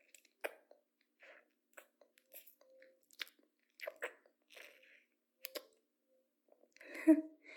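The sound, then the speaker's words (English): Gum being chewed makes many quiet, wet clicks and soft smacks in an uneven rhythm, spaced by brief silences, with a slightly louder, fuller squish near the end. “free gum tastes really good too.”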